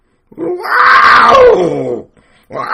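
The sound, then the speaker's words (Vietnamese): A human voice imitating wild cats yowling in the March mating season: one long, loud, wavering wail that sinks in pitch near its end, followed by the start of a second cry. “cuồn cuộn giống như con mèo ở rừng được tháng 3 nó wow”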